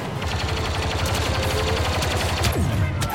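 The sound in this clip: Rapid automatic gunfire from a video game weapon that overheats with sustained shooting. A fast, continuous stream of sharp shots runs unbroken at even loudness through the whole clip.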